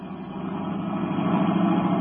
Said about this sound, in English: Turning onto the road, Britt Reed pressed down on the accelerator. The sedan sped along the concrete after Brinkley's car.